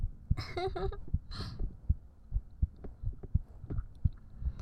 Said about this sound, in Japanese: 鼓動早いかな、お酒飲んだからかな。